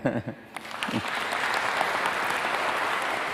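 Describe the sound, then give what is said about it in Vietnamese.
Audience applause at a Buddhist sutra lecture: many hands clap in a dense, sustained patter that builds after a few scattered claps and holds steadily to the end. “Và mọi người vỗ tay là Thầy biết là khỏe rồi.”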